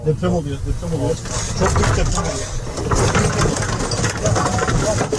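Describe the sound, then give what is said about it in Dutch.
Rattling and rumbling of a car shaking back and forth on a dashcam recording during a magnitude 6.4 earthquake in the Turkish-Syrian border region, with dense clattering over a low engine drone and a voice briefly at the start. “wat je hoort is, en ook als je de beelden zou zien, een heen en weer schuddende auto. Dat was heel kort, maar wel krachtig.”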